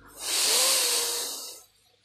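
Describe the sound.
A single long, slow breath out during a guided forgiveness and relaxation exercise, a steady airy hiss lasting about a second and a half that swells quickly, holds, then gradually fades away, heard alone without any talking.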